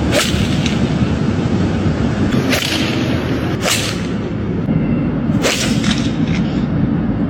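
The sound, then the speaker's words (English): Golf balls are struck by clubs, giving a few sharp, loud cracks at irregular intervals over steady, noisy background sound. “It's the sound of guys hitting golf balls.”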